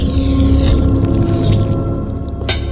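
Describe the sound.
A liquid metal robot squeezes through bars and its gun catches. The result is a wet, gloopy squish over a steady low rumble, ending in a brief sharp burst.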